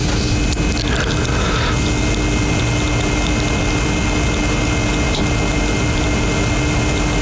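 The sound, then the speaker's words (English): Mechanical hare lure running on its rail at a greyhound track: a loud, steady whirring and rumbling drone that holds unbroken for the whole stretch, with no voices. “And here in the Valley Race 7, the Hare is in motion. So Hare on the move then here at the Valley Race 7.”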